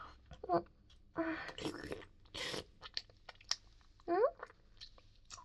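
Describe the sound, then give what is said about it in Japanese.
Someone chewing and crunching food at a family restaurant, with several short crunchy bursts and soft mouth noises and brief voice sounds in between, all fairly quiet. “ファミレスなんだから、物を食べるのは普通でしょ？お腹空いてたしね。”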